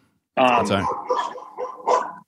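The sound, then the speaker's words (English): Dogs bark at home: a long burst of barking comes first, then a few shorter barks at uneven gaps. The barks are loud, with no background sound between them. “Wait, so sorry about my dogs.”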